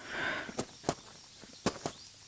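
Footsteps of a brisk walk: four sharp, faint steps falling in two quick pairs over a quiet background.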